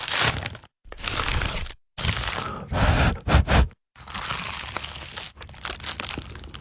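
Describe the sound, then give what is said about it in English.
Crunchy bites into an award-winning pie, with loud, crackly crunching and crumbling in several bursts separated by brief silences, heard alone without talk. “that was the sound of an award-winning dad's pie.”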